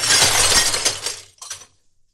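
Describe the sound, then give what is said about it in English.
Glass shatters as a display case is smashed: a loud burst of breaking glass lasting over a second, followed by a shorter second clatter of glass before it falls silent. “I'll have to smash the glass case.”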